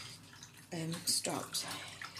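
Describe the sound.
Water runs steadily from a tap while a person talks over the flow. The running water stays constant beneath the voice.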